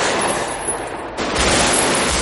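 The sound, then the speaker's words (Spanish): Heavy gunfire in a street shootout between robbers and police: a dense, continuous barrage of shots that dips briefly just past the midpoint, then resumes louder. “Vincent se asoma y dispara.”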